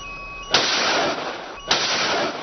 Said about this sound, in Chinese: 编队临机调整作战部署，紧急采用干扰防御措施。 鱼雷告警，水上站位起来，发射， 发射。